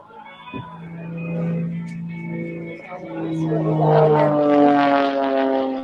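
An airplane flies overhead at an outdoor event with parachute jumps and paragliders. Its steady, droning engine hum carries layered tones and swells louder through the second half.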